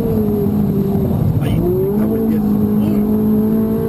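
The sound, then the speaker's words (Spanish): A Ferrari race car engine drones loudly at high speed, around 250 km/h, on the old Jarama circuit. The steady, dense engine note dips briefly near the middle. “Fernando Alonso mete miedo a Carlos Miquel a 250 kilómetros hora con su Ferrari.”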